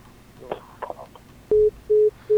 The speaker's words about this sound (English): Sorry, you have a caller. Hello.